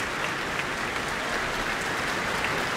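Concert audience applause after a pianist's encore of a classical piece, heard as a steady, even roar of many hands clapping that holds its level throughout, with no voices.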